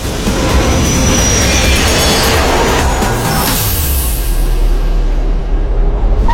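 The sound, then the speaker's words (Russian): Metro train pulling away from an underground platform: a loud, steady low rumble with broad hiss above it that runs the whole time, and a low hum that drops partway through. “Поезд метро отходит от платформы.”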